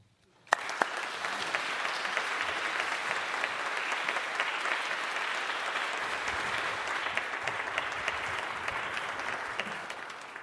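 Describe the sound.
Audience applause welcoming a symposium's evening speaker bursts in suddenly after a brief quiet moment, then continues as a full, steady wash of many hands clapping that holds through to the end.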